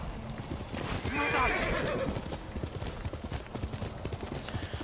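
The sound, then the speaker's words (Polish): Horse galloping in a video game: a steady, fast clatter of hoofbeats with a loud neigh near the start, over a constant background. “Konik jest, wsiadamy i dajemy czadu.”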